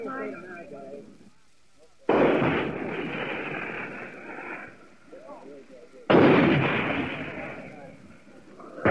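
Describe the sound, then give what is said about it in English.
Two heavy booming blasts of a 75 mm tank gun firing shells at a hill during an assault. Each blast starts sharply and trails into a long rumbling decay, with faint speech before the first. “We've run about 12 over the hill since we fired up 75 on that tank gun.”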